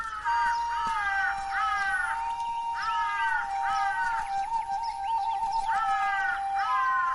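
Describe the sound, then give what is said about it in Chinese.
Two big crows caw in a run of harsh, repeated calls with short gaps between them, loud over a steady whistle-like tone that runs underneath. “是两只大乌鸦。”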